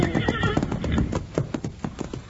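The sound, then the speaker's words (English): A wild horse neighs as hooves clatter in a fast galloping rhythm, loud and busy from start to finish. “He's one of the prettiest wild horses I ever saw in my life.”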